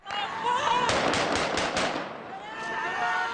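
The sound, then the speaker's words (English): Celebratory gunfire in the streets of Baghdad after the Iraqi national soccer team's Asian Cup final victory: a rapid burst of several sharp shots in the middle, with voices audible before and after. “celebratory gunfire rang out in the streets of Baghdad today after the Iraqi national soccer team scored an upset victory in the Asian Cup finals.”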